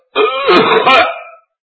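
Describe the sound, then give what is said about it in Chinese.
A single short, gruff throat clearing, a rough voiced cough-like rasp lasting about a second, performed in a storytelling to imitate a ruler's cough, loud and alone. “只要洪秀全稍微咳嗽一声”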